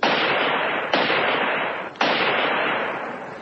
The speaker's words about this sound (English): if I aim this Mauser at the radio transmitter and fire so...